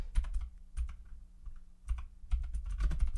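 Keyboard typing: fast, irregular clicking and clattering of keys, with a few brief pauses between bursts. Faint, with no talking.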